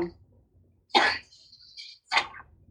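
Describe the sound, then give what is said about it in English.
A person coughing in a few short, harsh bursts with quiet gaps between them, fairly faint and with no talk. “I cannot stop coughing.”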